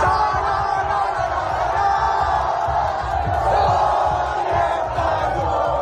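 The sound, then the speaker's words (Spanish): Crowds cheer and shout in city squares and streets across the region of Murcia, Spain, after a World Cup final win over Argentina in extra time. The roar is loud, dense and continuous throughout. “Es la euforia vivida en plazas y calles de toda la comunidad por la nueva hazaña de La Roja que se hace con su segunda estrella mundialista tras vencer a Argentina en la prórroga.”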